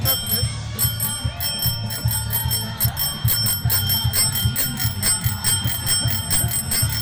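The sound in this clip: A bell on a fatbike rings over and over in quick, even strikes, a bright metallic ring repeating for the whole stretch above a steady low rumble.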